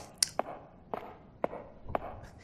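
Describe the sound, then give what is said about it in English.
High heels click as someone walks, producing sharp, bright taps at an even, unhurried pace, quiet overall with faint background noise between the steps. “I have to admit, I'm not a fan of these footsteps. Yeah, it sounds like you're wearing high heels.”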